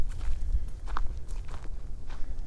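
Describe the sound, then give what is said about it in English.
Soft crunching footsteps of someone walking around the head of a culvert, a steady run of faint steps over rough ground. “And I'm kind of heading back the way I came. Walking back around the head of this culvert.”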